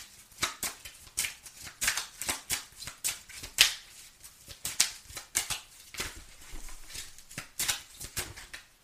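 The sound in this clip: Tarot cards being shuffled and drawn: many crisp, papery snaps and flutters in irregular bursts, moderately loud, with no talking.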